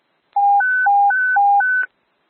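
Radio paging tones for a Mankato ambulance ALS crew: six steady electronic beeps alternating between a lower and a higher pitch, each about a quarter second long, loud and clean with no voices.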